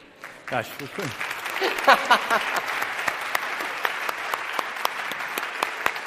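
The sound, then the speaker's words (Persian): Applause from a class audience in a classroom: a dense, steady patter of many hands clapping that runs the whole clip, with a voice briefly heard near the start. “دسته دوم تشویق.”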